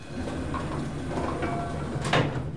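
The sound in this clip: Sliding doors open into a security room, heard as a steady low hum with a brief, brighter swishing burst near the end.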